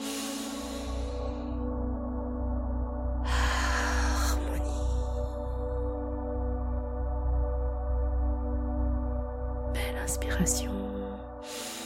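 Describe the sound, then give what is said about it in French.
A deep breath drawn in through the nose during a guided new-moon meditation: a long, airy inhale, with a second breath later, both heard over a soft, steady drone of music. “Belle inspiration par le nez.”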